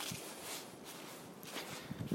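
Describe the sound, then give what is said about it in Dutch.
Faint footsteps of a person walking along a forest path, a few soft, steady steps with light crunching and rustling underfoot, alone without talk. “maar dit is wel het pad wat ik loop. En het is wel mooi, want ik loop nu op een heel mooi bospad.”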